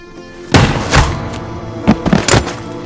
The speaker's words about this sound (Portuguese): O tiro de Cabeleira acerta a cabeça de Gringo, que cai no chão morto.